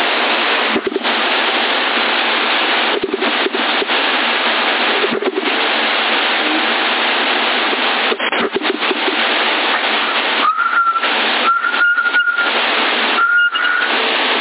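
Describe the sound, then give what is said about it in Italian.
Whistle sent over a CB radio link on 27.075 MHz near Sassari: a few short, steady, mid-pitched whistle tones come near the end, over constant narrow-band radio hiss broken by brief dropouts. “Il fischio lo conosco, chi è?”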